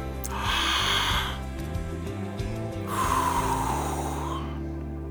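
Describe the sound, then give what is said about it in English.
Two long, airy deep breaths, a slow drawn-in breath and then a slow release, fairly loud and steady, with a low, faint hum sustained underneath. “let's draw a couple of deep breaths”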